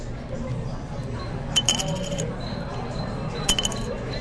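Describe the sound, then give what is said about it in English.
Poker chips clink during a home poker game, two short bright clusters of chinking that stand out over a low murmur of background noise. “So you can hear the chip. For all those blind people who may be listening out there.”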